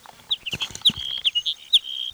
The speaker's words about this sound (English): Hedge sparrow number two.